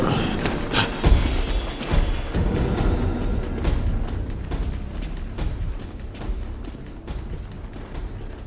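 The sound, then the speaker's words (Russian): A gunshot in a film, as a character shoots a man: one heavy thud early on stands out from a dense, noisy soundtrack. “Сайкс стреляет человека Фрэнкса.”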